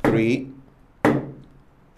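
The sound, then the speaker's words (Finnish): A stick strikes a floor three times in a saludo al muerto greeting to the dead, each sharp knock about a second apart and ringing briefly. “Kun minä tulen tänne, niin lyön 3 kepillä lattiaan.”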